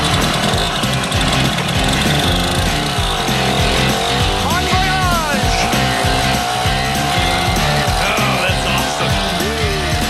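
The engine of a 1964 Ducati motorcycle, bought new, runs loudly and continuously with a rough, throbbing rumble and a couple of brief revs.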